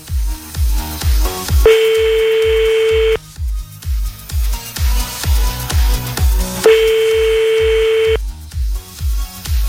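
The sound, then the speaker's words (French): A telephone call rings out with a French-style ringback tone: two long, steady buzzing tones about five seconds apart, set against a loud, rhythmic music beat that keeps pulsing throughout. “Alors attends, c'est pas grave, on va en appeler un autre, c'est pas grave. Ça arrive, on y va. On appelle un autre.”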